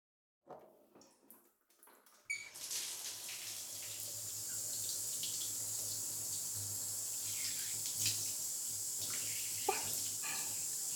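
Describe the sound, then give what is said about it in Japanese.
Water pours steadily to rinse someone's back during a bath. A few brief knocks and splashes come first, then a faint, even stream of running water continues to the end. “まず背中を流してあげる。”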